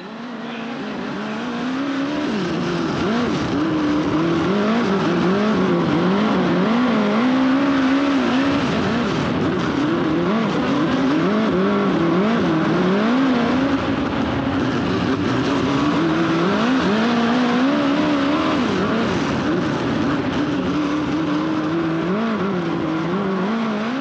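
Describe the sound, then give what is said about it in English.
Race car engines roar through a heat race, a loud continuous drone whose pitch wavers up and down as the cars rev and ease off, with no talk over it. “And now you can put the first video of him busting some laps, the first one. And this is great. Turn that up. This is the heat race.”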